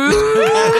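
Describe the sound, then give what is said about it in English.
A cow moo sound effect plays as one short, low, droning call with a steady tone, loud and alone. “I mean, I could do a cow. It's not related, but I could do another cow sound.”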